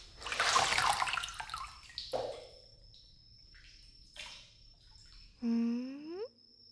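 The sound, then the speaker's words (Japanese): Bath water sloshes and splashes as someone is washed in the tub: a loud burst of wet splashing at the start, then a few quieter swishes and trickles. “湯加減はいかがですか？ 今から体を洗って差し上げますね。”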